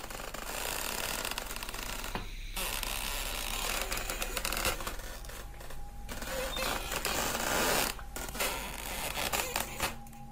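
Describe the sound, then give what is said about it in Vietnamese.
Moving trees creak and twist in an eerie scene: a dense grinding, crackling texture runs for about ten seconds and breaks off briefly a few times. “Những cái cây di chuyển phát ra những tiếng cọt cả cọt kẹt vặn vẹo đến ghê răng.”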